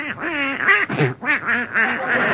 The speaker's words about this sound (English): Get out of my bed, you silly-looking duck. Out, out.